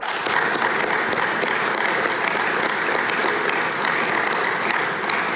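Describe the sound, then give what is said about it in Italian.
Audience applause, a dense, even roar of many hands clapping that holds at a steady level for just over five seconds without a clear rise or fall. “a cui direi idealmente di unirci in un applauso,”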